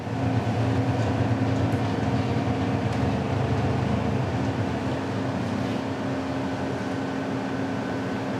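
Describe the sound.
A vehicle without suspension working along a muddy path, its engine giving a steady, droning hum with a low tonal whine that stays fairly even in level throughout.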